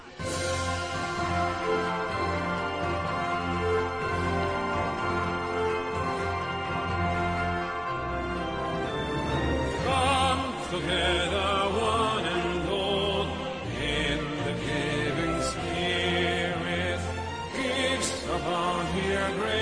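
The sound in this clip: A song from Robert Zemeckis' motion-capture film A Christmas Carol plays without pause, full and steady in loudness, with dense sustained harmonies and a rich low end throughout.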